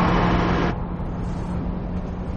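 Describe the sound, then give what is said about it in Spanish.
A bank van driving through a tunnel, heard as a steady, dense rumble of road noise with a low hum that drops slightly in level early on and then stays even. “El furgón del banco recorre un túnel.”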